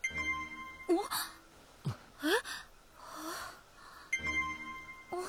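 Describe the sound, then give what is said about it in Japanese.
Bright level-up chime signalling party members gaining levels while hunting monsters in a game-like world; ringing tonal notes sound twice, once near the start and once near the end, alongside short gasps and exclamations from voices. “なにこの音。 皆さんのレベルが上がった証です。 順調にレベルアップしてるってことだ。”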